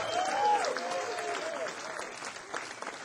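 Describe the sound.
An audience applauds the drummer at a live jazz concert, steady dense clapping that carries on through the whole stretch, with a voice heard briefly over it at the start.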